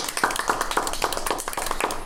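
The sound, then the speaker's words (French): A few people clap for themselves in celebration, giving quick, fairly even claps of moderate loudness that continue throughout without speech. “Je pense qu'on peut s'applaudir, les copains.”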